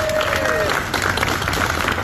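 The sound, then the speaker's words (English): Applause for an injured firefighter, burned in a mill explosion and fire, as he leaves the hospital: dense, steady clapping with crowd noise continues throughout. “Heartfelt applause today when a firefighter injured in the Searsmont Mill explosion and fire last month left the hospital this afternoon.”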